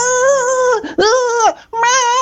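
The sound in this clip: Children crying and shouting on a beach: three loud, high-pitched wailing bursts with short breaks between them.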